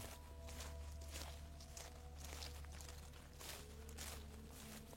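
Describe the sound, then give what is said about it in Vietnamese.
Footsteps rustle and crunch over dry leaves outdoors in a series of soft, irregular steps. They stay faint above a low, steady hum. “nghe có tiếng bước chân loạt xoạt dẫm vào lá cây khô ở bên ngoài vang lên ngay sau tấm vách của họ.”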